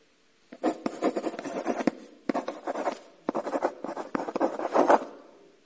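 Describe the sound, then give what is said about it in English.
A pen or pencil writing on paper, giving quiet, scratchy strokes in a few bursts separated by brief pauses, with no talk. “Writing, yes, excellent.”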